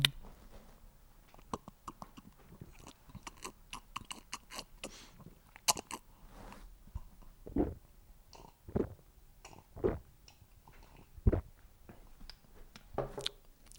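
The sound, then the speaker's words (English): Close-up sips and gulps of beer, with soft wet mouth clicks and small smacks throughout and a few louder swallows standing out in the later part; nobody talks. “ASMR? Listen to me drink this beer.”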